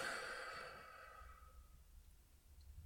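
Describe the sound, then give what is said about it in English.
A long breath out during a guided progressive muscle relaxation exercise. It starts strong and airy, then fades away over about a second and a half, leaving faint, low breathing noise. “And yes, you can hear me breathing along with you. Take one more big deep breath in through your nose and out through your mouth.”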